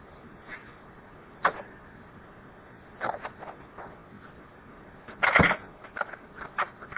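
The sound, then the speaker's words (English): A cassette is turned over by hand in a tape machine that has no automatic reverse, making plastic clicks and handling clatter. A few sharp knocks are separated by quiet pauses, followed by a louder burst of rattling near the end. “The one thing about this new tape machine, it doesn't have an automatic reverse, so I have to take care of that by hand.”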